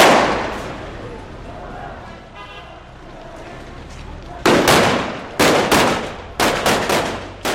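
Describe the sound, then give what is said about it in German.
Gunshots in Aleppo during the civil war: several sharp, loud cracks go off in quick, uneven succession in the second half, after a quieter stretch of low background noise. “Manchmal wird geschossen, um etwas zu feiern, manchmal um zu töten.”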